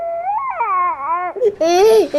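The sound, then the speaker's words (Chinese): A young child fusses and cries in a wavering, high-pitched wail broken by short whimpering catches, then rises into a louder, strained cry before trailing off. “现在孩子闹得我没法跟你说话，我挂了啊。”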